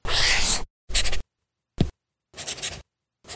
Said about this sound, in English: That's not paper. It's the sound of the new Remarkable Paper Pro, rewriting the future.